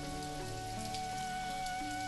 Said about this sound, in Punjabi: ਹੁਣ ਮੈਂ ਘਰ ਕਿਵੇਂ ਜਾਵਾਂਗਾ, ਇਹ ਬਾਰਿਸ਼ ਫਿਰ ਸ਼ੁਰੂ ਹੋ ਗਈ ਹੈ। ਮੈਂ ਤਾਂ ਪੂਰੀ ਤਰ੍ਹਾਂ ਭਿੱਜ ਚੁੱਕਿਆ।